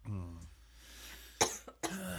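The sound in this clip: A few short, sharp coughs from someone who inhaled wine too quickly while smelling it. The coughs come in a quick cluster after a brief voiced sound.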